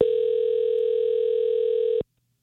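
A telephone dial tone sounds while a call is being placed, a steady, loud, unbroken hum that holds for about two seconds and then cuts off abruptly into silence.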